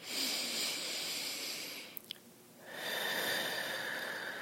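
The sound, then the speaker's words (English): A deep breath during a tapping relaxation exercise: a long, soft, airy inhale, a pause with two faint clicks, then a long exhale. The whole breath is faint. “And take a nice deep breath.”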